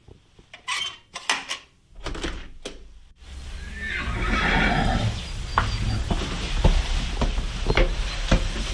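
Hungry horses in a stable in the early morning: whinnies and snorts mix with clattering hooves and knocking clanks, over a steady rustling background.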